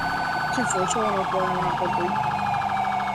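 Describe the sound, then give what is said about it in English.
A stolen ambulance's siren wails in a video game as the vehicle speeds at about 100 miles an hour, a loud, continuous warbling wail with rapidly oscillating tones that holds steady throughout. “I have a 1080 on a stolen ambulance. He's going about 100 miles an hour in Los Santos.”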